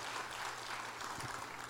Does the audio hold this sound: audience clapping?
yes

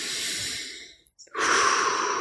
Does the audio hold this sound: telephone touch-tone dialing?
no

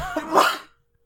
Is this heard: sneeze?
yes

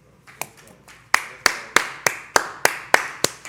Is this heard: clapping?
yes

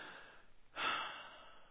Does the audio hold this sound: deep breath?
yes

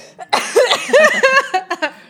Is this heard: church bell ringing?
no

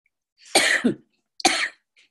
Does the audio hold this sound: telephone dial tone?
no

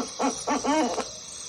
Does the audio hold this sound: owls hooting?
yes

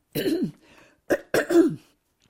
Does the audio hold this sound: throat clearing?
yes

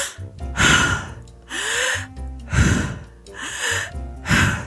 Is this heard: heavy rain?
no

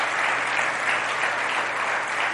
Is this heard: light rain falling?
no

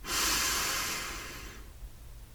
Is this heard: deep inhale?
yes

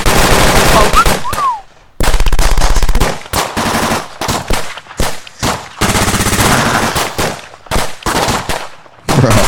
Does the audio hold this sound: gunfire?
yes

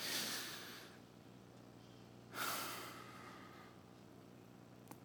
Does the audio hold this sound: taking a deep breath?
yes

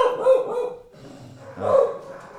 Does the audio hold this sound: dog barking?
yes

